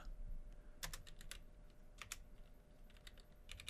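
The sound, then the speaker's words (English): Typing on a loud Roccat Vulcan computer keyboard: many irregular, crisp key clicks in short bursts, faint overall and with no talk over them. “You can hear my typing. My keyboard is really loud. I love this keyboard. It is a Rocat that”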